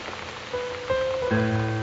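Rain falls on the city of Istanbul in a steady, hissing patter, with sustained musical tones entering over it and growing fuller toward the end. No voices are heard.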